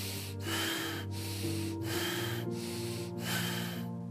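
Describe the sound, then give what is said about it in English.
Deep, fast, rasping breaths from a guided meditation breathing exercise come in a rapid, evenly spaced rhythm, each harsh rush of air separated by short gaps, over a steady low musical drone. “breathe this way. Deep and fast, rasping breath, deep and fast.”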